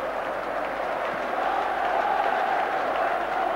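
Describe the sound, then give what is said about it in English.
A crowd at a packed City football ground applauds and cheers in an emotional welcome for a player on his last home appearance. The roar is steady and dense, swelling slightly midway and never breaking. “An emotional welcome from a packed City ground.”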